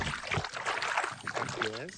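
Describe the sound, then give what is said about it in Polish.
Lake water splashes beside a sailing dinghy in soft, continuous sloshing and dribbling, kept quiet under people speaking. “Gdyby ktoś myślał, że to nie jest woda, to tutaj możemy pochlapać,”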